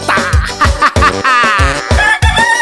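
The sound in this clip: A rooster crow sampled into upbeat forró pisadinha dance music, its wavering call sustained over a loud, steady backing of regular bass thumps and bright instruments.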